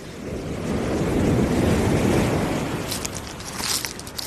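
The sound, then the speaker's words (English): The incoming tide washing onto the shore: a broad, rolling surge that swells to a peak mid-clip and then eases back, with gusty wind noise buffeting throughout. “That sound you can hear behind me is the incoming tide, relentless and unstoppable”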